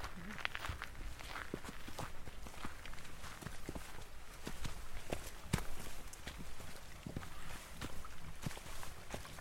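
Footsteps of a group of people hiking down a forest trail, many soft, steady crunching steps in an irregular rhythm, faint throughout.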